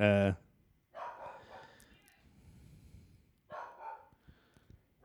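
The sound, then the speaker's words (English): A dog barks inside a flat: one loud, sharp bark opens, followed by a few fainter, scattered barks and yips over low background noise. “You may be able to hear a dog in the background. I don't know if the microphone will pick it up. But there's a dog barking in my flat.”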